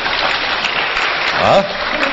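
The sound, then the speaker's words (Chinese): Audience applause, dense and steady like a wash of rain-like patter throughout, with a brief voice rising above it partway through. “大家鼓掌什么意思啊？”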